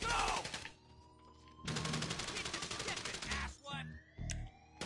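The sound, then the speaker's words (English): Rapid automatic gunfire in the online video game GTA Online during a casino heist mission, two long dense bursts of fast shots separated by a lull, then shorter thuds and other game effects. “Do you see him shooting?”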